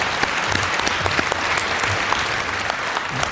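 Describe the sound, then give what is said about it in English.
Loud, dense applause from an audience at the close of a session for speakers on stage, a continuous wash of many hands clapping at once with no pauses. “So, big round of applause for these guys.”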